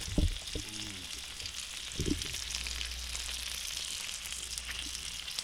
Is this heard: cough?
no